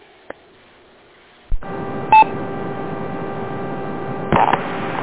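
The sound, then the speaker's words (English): Amateur radio repeater tones triggered over Echolink: a sharp click, then a steady electrical hum broken by two short, pure tone bursts. “you're not going to hear this noise until I send a text to another Echolink station. Then you'll hear that repeater make that noise.”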